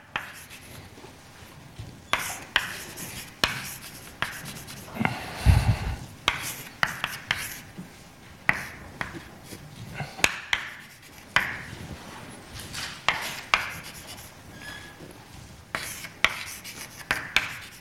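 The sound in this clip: Chalk or marker writing on a board during a mathematics lecture: many scratchy strokes and light taps in irregular bursts, without speech.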